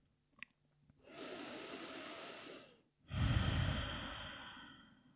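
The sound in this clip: Slow, deep yoga breathing during a prenatal yoga practice: one long airy inhale, a brief pause, then a fuller, louder exhale, alone and unvoiced, with a few faint clicks just before.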